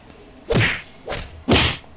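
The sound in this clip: A head bumping into a sign: three loud, hollow thwacks, each with a short swishing tail. The first two are spaced a little apart and the third follows quickly. No one talks.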